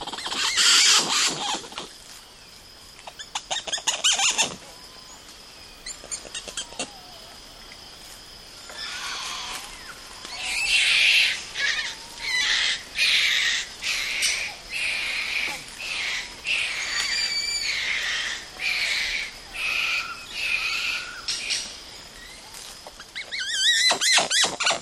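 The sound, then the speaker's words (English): Wildlife calls at a biological station in Brazil's Atlantic Forest: many loud, high squealing and chattering bursts, scattered at first and then coming in fairly regular pulses over a steady background. “Douglas Quinn recorded these sounds at the Caratinga Biological Station in Brazil's Atlantic Forest.”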